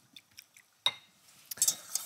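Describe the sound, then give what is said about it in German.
Egg yolks are stirred smoothly with milk in a bowl for vanilla pudding: faint, sparse clinks and scrapes of a utensil against the dish, a few sharp taps separated by quiet gaps. “So, jetzt rühren wir also unsere Eigelbe schön glatt mit unserer Milchmenge und stellen also dann unseren Vanillepudding her.”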